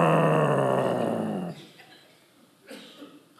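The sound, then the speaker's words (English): A dog growling: a low, rough, sustained snarl that holds steady for about a second and a half, then cuts off into near quiet with a faint rustle afterward. “A dog really barking, wrath. Or when a dog growls,”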